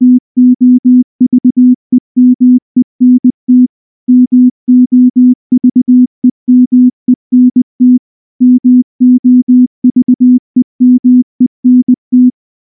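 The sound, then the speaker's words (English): Low electronic telephone tone pulsing in rapid bursts of short beeps, grouped into many evenly spaced clusters with brief gaps between them, loud and alone. “PHONE, phone.”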